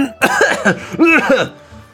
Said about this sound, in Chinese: 赵普想的一开心，就被汤呛到了，直咳嗽。